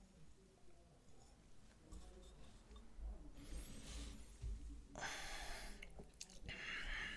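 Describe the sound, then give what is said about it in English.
Sipping a light whiskey at a tasting: quiet, wet mouth and slurping noises, followed by a couple of breathy bursts, all soft and close. “Let's drink some whiskey.”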